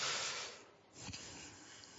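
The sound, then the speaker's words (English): A person takes a single quick breath between sentences. It is a soft, brief rush of air that fades away, followed by a faint tick, and the whole is very quiet. “Just another second, I'll take a breath.”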